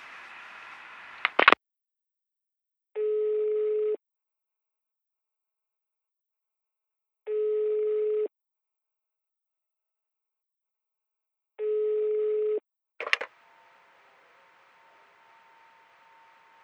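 A telephone ringing tone while a call is being placed: three evenly spaced, one-second mid-pitched tones separated by silence. A sharp click comes before the tones and another after them, followed by faint hiss.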